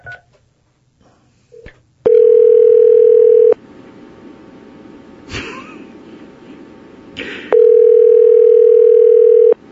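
Telephone dial tone while placing a call: a loud, steady, unbroken hum plays twice, the second stretch longer than the first, with a few short clicks and brief tones in the quieter gap between.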